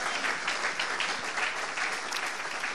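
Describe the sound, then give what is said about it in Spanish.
A church audience applauds during a sermon, giving praise to Christ. The clapping is thick and continuous, holding an even loudness from start to finish. “Vamos a darle un aplauso a Cristo, porque ese es nuestro fundamento.”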